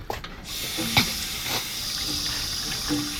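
Water runs from a sink tap in an apartment as a steady, even hiss. A few faint clinks and taps sound over the flow.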